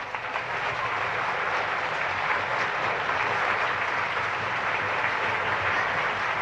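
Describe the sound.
Enthusiastic applause from a live audience for an orchestra, a dense, steady wash of clapping that holds at an even level throughout.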